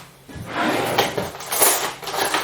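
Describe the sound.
A spoon goes into a pot of soup with dumplings, bacon, onion and parsley: a few light knocks and scrapes against the pot, with soft clattering and no talk.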